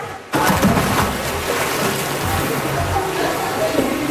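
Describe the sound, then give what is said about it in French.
A woman diving through a hoop into water makes a sudden splash, followed by continuous churning, sloshing water noise that holds steady to the end. “Voilà, elle vient de plonger au travers du cerceau.”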